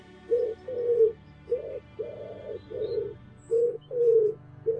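Pigeons cooing in a steady series of soft, low, rounded coos, each short burst followed by a brief pause, repeating evenly throughout.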